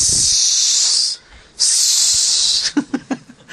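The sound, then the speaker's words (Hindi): A human voice imitates a snake's hiss, as a healer speaks to a snake in its own language: two long, loud, sharp hisses with a brief break between them, then several short breathy puffs. “तो दरवाजा बंद करके वो सांप की भाषा में बात करने लगते हैं,”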